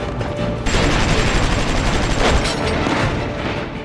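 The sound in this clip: Gunfire and explosions from an Allied assault by paratroopers and mortar crews on German artillery observers hidden in caves along the Volturno river: a loud, dense roar of continuous fire, with a sharp burst early on and a swell midway.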